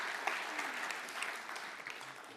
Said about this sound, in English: Would you give those guys a hand and welcome them into the room?